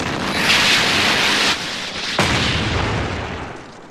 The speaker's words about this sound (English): Iraqis again, launching Sidewinder missile. Missed him. Launching second Sidewinder missile.